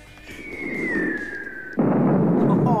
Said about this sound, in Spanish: Bueno, pronto tire, tire la bomba, Diego.